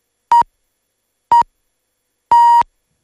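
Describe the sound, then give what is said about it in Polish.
Radio hourly time signal pips marking the hour: two short beeps and then one long final beep, all at the same steady mid pitch, loud and clean with silence between them and no talk. “Szósty, ostatni długi sygnał oznacza, że minęła 17.”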